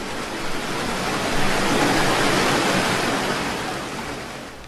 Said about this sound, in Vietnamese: khắp nơi đều là những con sóng chồng lên nhau, cả mặt biển dao động, không theo bất cứ quy luật nào, như nồi nước đang đun sôi ùng ục